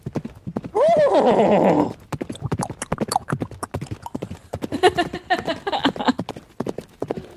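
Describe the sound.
A horse whinnies loudly, then rapid clip-clopping hoofbeats of a horse galloping on a racing track follow for several seconds, with voices mixed in at times.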